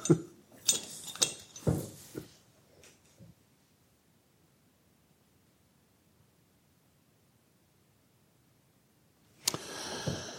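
A glass bottle clinks and rustles as it is handed over, a few sharp chinks in the first three seconds, then near silence before a short burst of rustling noise at the end.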